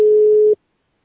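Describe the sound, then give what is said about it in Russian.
A single telephone ringback tone on an unanswered call: one steady, low-pitched beep lasting about half a second, then silence. “Гудки слышишь? Слышу. Ну вот. Просто они трубку не берут что-то.”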